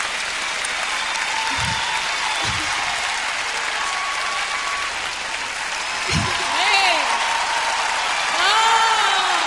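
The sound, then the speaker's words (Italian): Sustained audience ovation after a song performance, with dense clapping throughout and a voice talking over it. The applause swells slightly toward the end. “Ovazione da parte del pubblico.”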